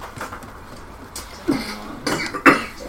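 A person coughing and choking while drinking, a few short harsh coughs in quick succession in the second half after a quieter stretch.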